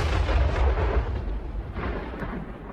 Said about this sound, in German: Ein Monument, das in Fels gesprengt wird.